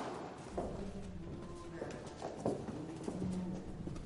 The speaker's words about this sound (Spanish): Caminan por un pasillo. Bajan una escalera.